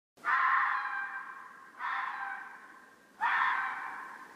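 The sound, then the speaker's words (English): Three harsh, drawn-out fox screeches ring out one after another, each starting abruptly and tailing off over about a second, with no voices. “It's normally like a vixen shouting for sex, isn't it? Pretty much. Here's the sound of a fox.”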